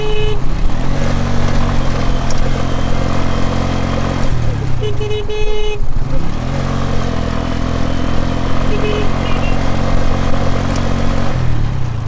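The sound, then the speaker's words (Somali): Motorcycles ridden by people through a junction in the town of Bariire make a steady, loud engine drone that continues throughout, with layered low engine tones. “waxaan arkayaa dad jacaba oo mootooyin ku wata joogdariyal ay ku saaxay jireen ciidamada dawladda federaalka ah”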